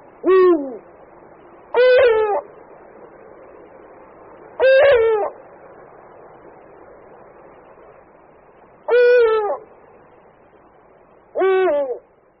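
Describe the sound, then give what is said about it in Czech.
A pair of eagle owls, male and female, duet during the courtship season with five short hoots spaced a few seconds apart, each sliding downward, over quiet background. “Slyšeli jsme společné, takzvané duetové volání samce a samice, kdy houkání samce bylo zřetelně hlubší než hlas samice.”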